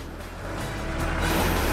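A car rolls backwards down a hill, a dense, steady rumble of tyre and road noise that swells gradually louder over the short stretch.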